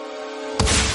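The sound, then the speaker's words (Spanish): A projectile blast fired by Iron Man in a film, a sudden loud burst that breaks in after a steady humming drone and then rumbles on briefly. “Dispara un proyectil que destroza el mecanismo de apertura.”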